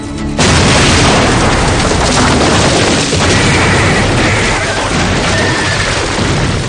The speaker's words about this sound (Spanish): En el túnel, Ben le enseña unos cartuchos de dinamita que ha robado. Al llegar al otro extremo, lo lanza al interior y Evans dispara contra el explosivo.